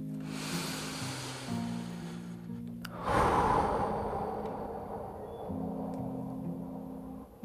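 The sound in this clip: A deep, strong breath taken during a guided relaxation exercise: a long, airy inhale lasting about three seconds, then a fuller, louder exhale that slowly fades, all over a steady low background tone.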